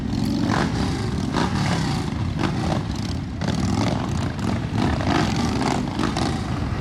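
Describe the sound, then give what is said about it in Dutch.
A large procession of motorcycles arrives at a city funeral for a former motorcycle club president, a continuous heavy engine rumble with engines revving and surging in waves over loud, unbroken traffic noise. “En zojuist is daar een grote stoet motorrijders aangekomen.”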